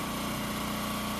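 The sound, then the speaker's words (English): Construction work on a home in Watertown, heard as a continuous mid-pitched engine drone of running machinery, steady and unbroken with no voices. “This is the sound of construction moving forward on a home in Watertown.”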